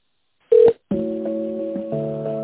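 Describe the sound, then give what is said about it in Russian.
A phone's touch-tone keypad sounds one brief electronic key beep while an extension number is dialed. A steady, multi-pitched line tone follows and holds continuously. “Чтобы соединиться с сотрудником компании, нажмите решетку и наберите его внутренний номер.”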